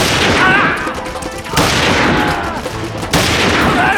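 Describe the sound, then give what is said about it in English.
Gunfire in a pre-dawn battle with bandits across a plaza: a dense, loud, unbroken roar of rapid shots that surges afresh a couple of times. “Streams of lead played back and forth across the plaza with lethal results. Bandits went down, shredded into gory ruin by the pounding bullets.”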